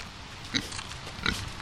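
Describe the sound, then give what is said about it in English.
Pigs on a pig farm in Longmont give two short, bright oinks about a second apart, rising over a steady low rumble of background noise. “Back at Ava Teague's pig farm in Longmont”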